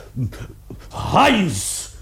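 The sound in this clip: A dog tied on a chain whimpers in a drawn-out whine that rises and falls in pitch, with low growling and people talking around it.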